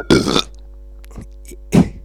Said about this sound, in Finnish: Mä yritin siellä Ruotsissa opetella sanoa niinku röyhtäisemmällä nei.